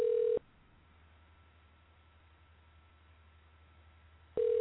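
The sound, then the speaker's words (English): Telephone signal of a call coming in to a radio studio: a steady electronic tone at the start, a stretch of low hiss, then the same tone again at the end. “Oh, we got a call. We got a caller.”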